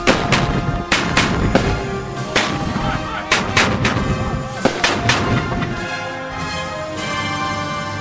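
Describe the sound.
Rifle volley fired by soldiers on command: many loud, sharp shots in an irregular series over a dense, rumbling background.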